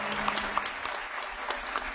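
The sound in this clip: An audience applauds as a panel moderator is welcomed at an evening talk. The clapping is dense, steady and continuous from start to end.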